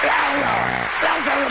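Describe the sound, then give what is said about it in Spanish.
Loud applause for a guest: dense, steady clapping across the short stretch, with a voice speaking over it. “Fuertes aplausos.”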